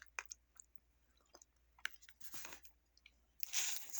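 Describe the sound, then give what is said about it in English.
Someone eats pineapple yogurt mixed with cinnamon, making faint, scattered wet mouth sounds, soft smacks and small clicks in near silence, with a louder, longer burst of chewing near the end. “So now I'm going to see how it tastes with the cinnamon.”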